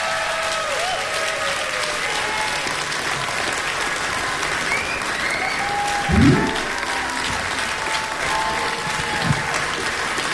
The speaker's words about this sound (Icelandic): gefi henni gott klapp